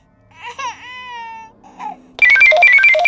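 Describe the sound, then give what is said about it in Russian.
Loud electronic ringing of a radio call signal bursts in abruptly after a stretch of a toddler's wailing cry, its warbling, stepped tones holding strong and unbroken to the end. “Оглушительно грянул звонок радиовызова, и у меня от неожиданности едва не выскочило сердце.”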